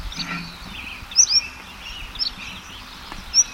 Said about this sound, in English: Bird number one is singing exceptionally well now.